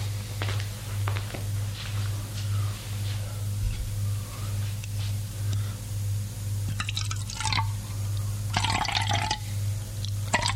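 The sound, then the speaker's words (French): Water poured from a carafe, heard as two short splashing bursts of pouring near the end, over a steady low hum and faint scattered drips. “il revient avec une carafe d'eau et fait le service.”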